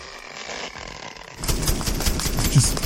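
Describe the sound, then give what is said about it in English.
Toy light-shooting gun in assault-rifle style firing a rapid, buzzy machine-gun-like burst that starts about a second and a half in, after a quieter hum, and stays loud to the end. “This is the gun that shoots lights, which would be amazing.”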